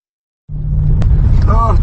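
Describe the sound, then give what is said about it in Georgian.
A car on a rough road drops a wheel into a ditch: a loud, low rumble starts abruptly after a short silence, a sharp knock follows, and a voice speaks briefly near the end. “როცა მისი ავტომობილის ბორბალი მორიგ თხრილში ვარდება”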